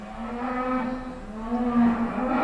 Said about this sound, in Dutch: je hoort de koeien al loeien